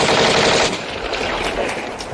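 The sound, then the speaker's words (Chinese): Machine-gun fire as soldiers shoot at fleeing Nationalist troops: a loud, dense stream of rapid shots that is strongest at the start and eases slightly after the first moments while continuing as sustained fire. “开枪！开枪！ 快开枪！”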